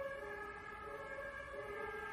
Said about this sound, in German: Jetzt schon wieder diese Sirenen.